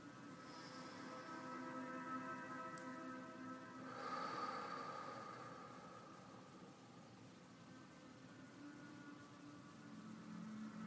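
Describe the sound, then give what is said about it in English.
A slow exhale and a large inhale from someone doing a breathing exercise, faint and airy, swelling softly near the middle before easing back down. “Slower exhale. Larger inhale.”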